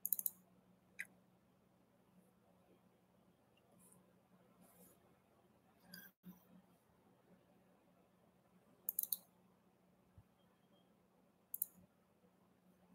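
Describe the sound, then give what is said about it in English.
Faint computer mouse clicks made while trying to end a live stream: a handful of sharp, isolated taps at irregular intervals, with a quick cluster at the start, over a low steady hum and no talking. “I'm trying to click the end button.”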